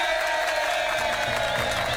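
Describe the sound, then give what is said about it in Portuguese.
Crowd applause with cheering to celebrate a birthday: a dense, continuous, loud clatter of clapping that runs evenly through the whole short clip. “Parabéns ao Arnaldo, uma salva de palmas pra ele.”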